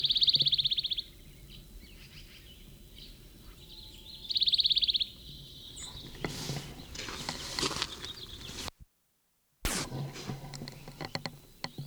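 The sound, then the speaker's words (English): A plain titmouse calls at 6:32 a.m. at a road fork by Big Creek, near a sycamore. Two short bursts of high, buzzy notes stand out over a faint background, followed by rustling and handling noise. “Plain titmouse at the road fork, Big Creek”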